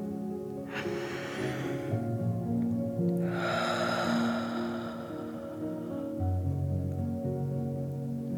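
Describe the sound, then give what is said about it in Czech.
A deep breath in and out during a children's relaxation exercise: a soft, breathy inhale of about a second, a brief pause, then a longer, louder rushing exhale. “Připravení, hluboký nádech a hluboký výdech.”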